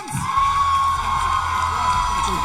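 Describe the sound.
Crowd cheering with whoops and some applause from a theatre audience at a live show, a loud, sustained roar of voices with little variation.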